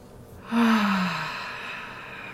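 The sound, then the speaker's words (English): One slow, deep breath during a guided breathing exercise swells in softly, then trails off gradually over about two seconds, airy and smooth. “Nice deep breath, just appreciating that you can take a nice deep breath, whatever deep is to you, okay? Nice deep one again.”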